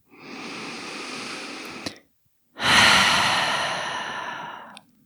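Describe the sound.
Deep breaths released through an open mouth during a guided relaxation: two long, airy whooshes with a short gap between them, the second louder and slowly fading, with no talk.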